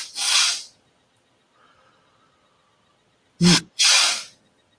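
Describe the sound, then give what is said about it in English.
A person breathing audibly to demonstrate a physiological sigh of two quick inhales and an exhale. Loud, breathy rushes of air are heard: one at the start, then after a long quiet pause two more close together. “it's called a physiological sigh. And it's two quick inhales and an exhale. I'll demonstrate it for you.”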